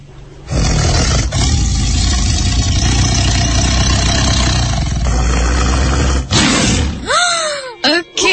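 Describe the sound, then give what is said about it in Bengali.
A tiger roars in a long, loud, rumbling growl that runs for about six seconds, followed by a shorter burst with sweeping, wavering tones. “১৯শে March তো টাইগারের গর্জন শুনতে চান? আমি কিন্তু এতক্ষণ শোনাচ্ছিলাম। হ্যাঁ মেঘলা বোধ, টাইগারের গর্জনের সাথে সাথে আপনার হাসিটা সেটা পরে, বাট আমি একটু টাইগারের গর্জনটা শোনাই।”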